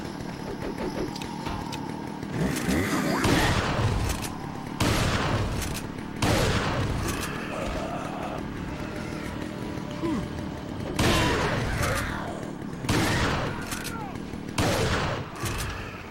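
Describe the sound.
Video game gunfire: repeated bursts of shots and impacts come in uneven clusters over a steady rumble, while a player talks over the action.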